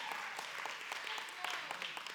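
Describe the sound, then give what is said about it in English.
A church audience claps hands in praise, a dense, steady patter of many hands with individual claps popping out, fairly faint, alongside some voices. “that ought to get us excited and give God a hand clap of praise”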